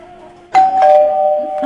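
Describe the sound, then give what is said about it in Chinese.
A doorbell ding-dong chime plays by mistake in place of a telephone ring. It gives two bright tones in quick succession, and the second one rings on and slowly fades, after a faint low hum. “这为什么在叮咚呢？你们放错了，要那个，要电话铃声呢”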